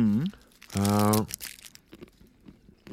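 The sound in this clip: A plastic bag crinkling and crumpling in short, crackly bursts right after a person speaks, the rustles scattered and fairly quiet.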